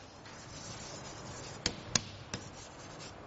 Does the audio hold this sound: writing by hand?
yes